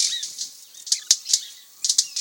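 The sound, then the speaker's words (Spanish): Loud, sharp wing snaps from a group of small male birds moving quickly between thin, leafless stems close to the ground. They come as several crisp cracks in irregular clusters over a faint, high hiss. “Con sus fuertes chasquidos de alas, un grupo de machos se mueve rápidamente de un tallo delgado y sin hojas a otro.”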